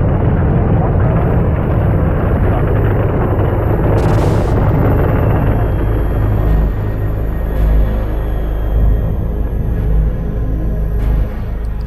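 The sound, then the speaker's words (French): First-stage rocket engines roar at the Apollo 11 liftoff, putting out 35,000 tonnes of thrust. The sound is a loud, continuous, crackling rumble that stays steady across the whole stretch, with occasional sharper cracks standing out. “la Terre tremble sous les 35 000 tonnes de poussée des moteurs du premier étage”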